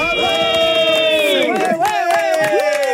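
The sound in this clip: A man shouts as loud as he can, a long, strained, high-pitched yell that breaks and wavers in its second half, backed by a cheering crowd.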